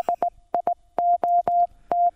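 Car horn beeps tapping out the Morse code for "idiot": four short beeps followed by four longer ones, all on one steady mid-pitched tone, sounding alone.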